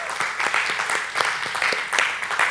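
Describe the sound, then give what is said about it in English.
Applause from a church audience welcoming first-time visitors during a service: many quick claps blend into a continuous, fairly even patter that holds steady throughout. “Can we give a hand to those first-time visitors?”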